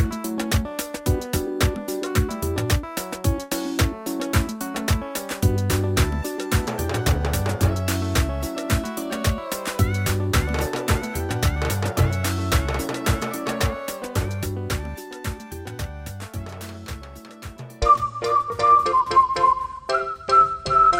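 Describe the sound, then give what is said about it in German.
Highlife music from Ghana plays with a busy, steady percussive rhythm under layered melodic lines. Near the end the texture thins and a bright, high whistle-like melody takes over. “Eine moderne Musikrichtung aus Ghana heißt Highlife und die klingt so.”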